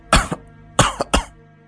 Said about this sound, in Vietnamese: Thầy Lương càng nói thì lại càng ho nhiều hơn